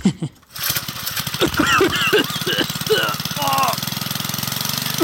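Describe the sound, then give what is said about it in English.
An engine left idling too long, sounding like it is seizing up: a rough, rapid knocking pulse that runs steadily throughout, with people talking over it. “I think we let it idle for too long, Croc. It sounds like it's seizing up.”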